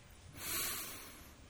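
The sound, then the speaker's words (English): A single deep breath drawn in, a soft airy rush that swells to its fullest near the middle and then slowly tapers off, heard on its own without any talk. “we will give thanks for this moment by taking in a deep breath, the breath of life,”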